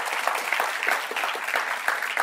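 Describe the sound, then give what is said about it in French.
Church audience applauding during a French-language service: steady, moderately quiet clapping from many hands, a continuous patter with a few sharper claps standing out. “Est-ce qu'on peut remercier et applaudir la parole de Dieu ce matin qui va encore parler?”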